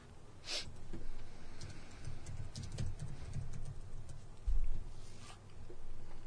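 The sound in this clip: Faint typing on a computer keyboard: scattered soft key clicks at an irregular pace, with a few louder taps, and no talk.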